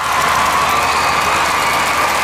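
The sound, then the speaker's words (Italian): A crowd in Piazza San Carlo cheers and applauds Roberto Bolle's arrival at the Ballo in Bianco dance event: a loud, steady roar of many voices and clapping with no break. “L'applauso di Piazza San Carlo per l'arrivo di Roberto Bolle dà il via al Ballo in Bianco.”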